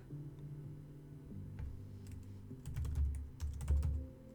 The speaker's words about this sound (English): I'm trying to type it, okay, but so this is the name of the group,